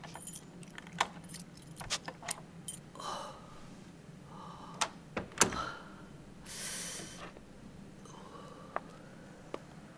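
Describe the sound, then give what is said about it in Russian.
Keys jangle and a lock clicks as an apartment door is unlocked with a key and opened. A few sharp metallic clicks and rattles stand out over a low background, followed by a short airy rush. “открывает ключом дверь в квартиру”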